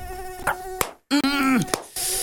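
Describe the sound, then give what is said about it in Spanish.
Mosquito buzzing, from the Aedes aegypti species: a whining, harmonic-rich drone in two passages split by a brief silence, with a few sharp clicks, the second passage's tone sagging lower just before it cuts off. “El mosquito Aedes aegypti transmite el dengue, el chikungunya y el zika.”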